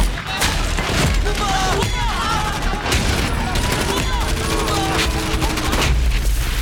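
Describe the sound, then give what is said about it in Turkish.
Gunfire after a command to fire, from a sniper engaging a target at 900 metres in a crosswind: a few sharp, heavy reports burst out over a dense, continuous wash of battle noise. “Görüyorum dostum, görüyorum. Hazır olunca ateş et. Ateş ol!”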